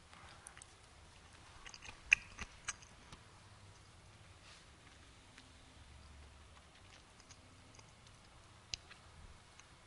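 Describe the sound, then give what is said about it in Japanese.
Faint chewing of communion bread, with soft mouth sounds and a few small clicks over a quiet background. “取って食べなさい、これは私の体です。感謝していただきます。”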